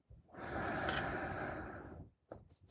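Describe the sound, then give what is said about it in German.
Deep breathing during a guided breathing meditation: one long, full, airy breath lasting nearly two seconds, then a brief fainter breath after a short pause, with no talk. “dass wir anfangs immer gemeinsam einatmen”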